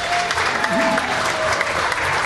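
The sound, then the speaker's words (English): Audience applause at a live event in Calgary, welcoming a speaker to the stage. Steady, dense clapping from a crowd continues evenly throughout. “So please, let's give Karen a real warm Calgary welcome.”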